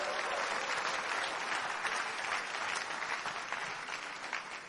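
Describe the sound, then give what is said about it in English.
A church audience claps to welcome a bishop to preach, a dense, continuous round of applause that holds steady and eases slightly near the end. “So with our hearts of joy, let's put our hands together for Jesus as we welcome God's servant, Bishop Dan Onoha, for the next shot of his word.”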